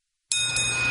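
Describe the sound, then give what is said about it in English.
Driveway bell dings as a car rolls into an oil change shop: one bright ding begins after a moment of silence, then rings on as a steady, clear high tone. “Hear that? That's the sound of a car rolling into Valvoline Instant Oil Change.”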